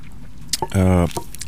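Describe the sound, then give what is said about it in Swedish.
A quick sip of ice-cold coffee: a short, wet slurp followed by a brief voiced hum, with no talking. “Jag ska ta en drick kaffe nu, för den är helt iskallt här.”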